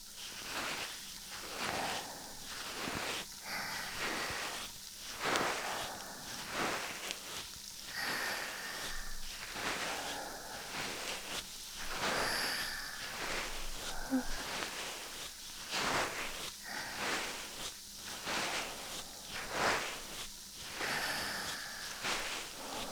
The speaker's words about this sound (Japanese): 炭酸、耳から垂れちゃってる。ごめん、今拭くね。